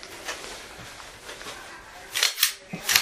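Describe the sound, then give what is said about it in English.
A round is ejected from a gun's chamber: a few sharp, metallic clicks and clacks come near the end, over a faint, hissy background. “Ejected one round from the chamber.”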